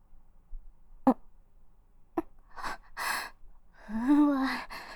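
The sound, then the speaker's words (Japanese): Deep breathing through flared nostrils, faint: a couple of sharp clicks, then two breathy inhales and a longer voiced, sighing breath. “こいつ鼻の穴広げて深呼吸してる。キモ。ちょ、あんま鼻息荒くすんなよ。”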